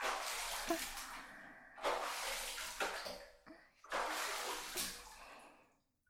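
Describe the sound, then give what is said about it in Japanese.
Water poured to rinse someone's back: a few soft, gushing, splashing pours separated by brief pauses, with the last one trailing off into silence. “お背中、流しますね。”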